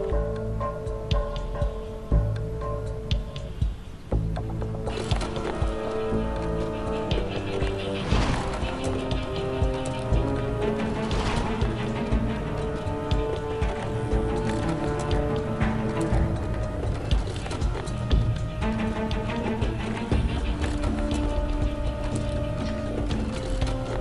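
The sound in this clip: A printer runs a print job, its mechanism whirring with shifting tonal hums and fine ticking. The sound is steady and moderately quiet throughout, and nobody speaks.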